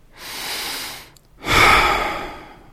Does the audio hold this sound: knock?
no